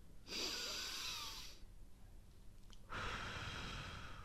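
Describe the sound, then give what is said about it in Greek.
Two deep breaths from a relaxation exercise: a hissy inhale through the nose, then, after a short pause, a broad, airy exhale through the mouth. Both are clear and moderately loud, with no talking. “Ρουφάμε από τη μύτη. Εισπνοή. Και εκπνέουμε από, από το στόμα.”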